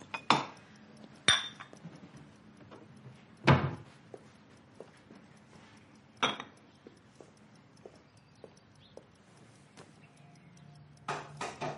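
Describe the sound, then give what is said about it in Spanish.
Coffee-making utensils are taken out in a kitchen, giving a few sharp, spaced-out clinks and knocks of metal and crockery with faint small ticks between them. “Ella saca los utensilios para preparar el café.”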